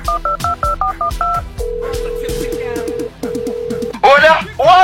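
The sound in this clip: Telephone dialing tones: a quick run of short two-tone keypad beeps, then a long steady single-pitch tone, a brief break and a second held tone, before a voice starts speaking.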